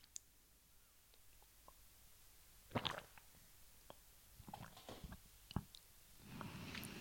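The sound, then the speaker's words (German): A quick sip of a drink by someone with something caught in the throat: faint, soft mouth clicks and a gulping swallow, a few small wet sounds with no talking. “Jetzt muss ich kurz einen Schluck trinken. Irgendwas ist da mit meinem Hals, hängt da gerade so.”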